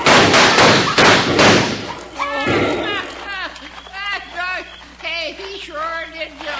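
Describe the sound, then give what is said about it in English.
Thumping and clattering as a person slides down a cliff: a loud, rough burst of scraping and knocks fills the first two seconds, then voices talk over a quieter background. “I'm sliding down the cliff. And it ain't easy either when you're 83. Was that you making all that racket? Well, sure.”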